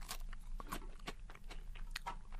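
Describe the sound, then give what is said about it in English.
Someone bites into a plain graham cracker, producing many faint, dry, brittle crunches in quick, uneven succession. “I'll ask you to take a bite of plain graham cracker.”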